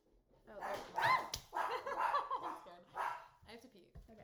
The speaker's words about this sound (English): Dog was barking at the mailman.